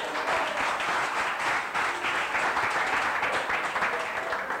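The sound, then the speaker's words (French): An audience applauds in continuous, dense clapping that stays loud and even throughout without a break. “On acclame Dieu pour ta vie.”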